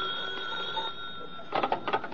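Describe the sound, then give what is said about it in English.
A telephone bell ringing, faint behind a steady high tone, then breaking into a quick series of rattling rings near the end. “Your telephone's ringing.”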